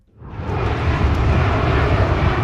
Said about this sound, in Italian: Sopra l'avveniristico SoFi Stadium di Los Angeles è un continuo volare di aerei in fase di atterraggio all'aeroporto della metropoli californiana